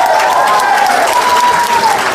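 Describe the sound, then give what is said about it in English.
An audience gives a loud round of applause for a volunteer, a dense and sustained wash of clapping hands that holds an even level throughout, with a thin steady whistle-like tone running through it. “Yeah, come on, give him a clap.”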